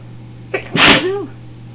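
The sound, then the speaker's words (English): A single loud human sneeze, preceded by a brief sharp catch of breath and tailing off quickly into quiet, from someone bothered by dust on books. “stop sneezing. I don't like to disturb.”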